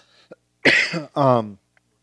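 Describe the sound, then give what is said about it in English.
A cough and a throat clearing make two loud, rough bursts close together. The second burst is longer and more voiced. A faint click comes before them and another after. “I just hate coughing into the microphone.”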